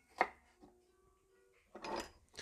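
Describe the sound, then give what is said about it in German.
A knife chops half an onion coarsely into half rings for a salad, giving a few separate cutting strikes with quiet gaps between them, the last cut longer and more scraping, with no talk. “Denn nimmst du dir hier eine halbe Zwiebel und schneidest sie mal grob in halbe Ringe.”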